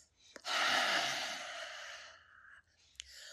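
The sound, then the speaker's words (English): A deep exhale through an open mouth during a guided breathing exercise: one long, breathy rush of air that swells quickly, holds steady, then tapers off, with a small click before it and another after. “Deep inhale, feeling your low belly, your ribs. Feel the air swirling in your chest. Open mouth, exhale, let it go.”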